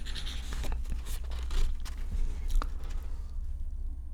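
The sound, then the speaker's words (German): Paper tearing and rustling as an envelope is ripped open and a letter unfolded, a few crisp rips and crackles over a soft continuous rustle, fairly quiet and without talk. “Und er riss den Umschlag auf, faltete das Papier auseinander und las vor.”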